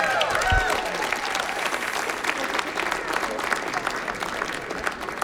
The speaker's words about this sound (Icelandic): Gefum hann gott klapp.